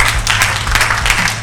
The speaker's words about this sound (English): Let's give the Lord a hand clap.